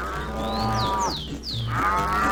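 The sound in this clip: Cow mooing at milking time, long low moos with a rich harmonic tone, one at the start and another near the end, with faint whistling chirps between them.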